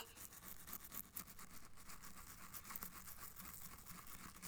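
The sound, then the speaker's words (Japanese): A toothbrush scrubs the teeth, reaching the back molars with a faint, continuous rasp of bristles. The brushing rhythm is soft and even. “ほら、奥まで歯ブラシ当たって気持ちいいですよね。”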